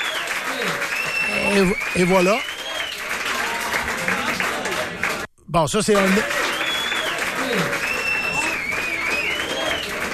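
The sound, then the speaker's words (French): Steady crowd applause for hockey goalie Marc-André Fleury, sustained and even, with a voice speaking French over it and a brief gap near the middle. “Ça, ce que vous venez d'entendre, c'est les applaudissements à l'endroit de Marc-André Fleury.”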